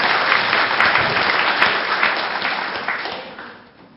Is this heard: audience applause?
yes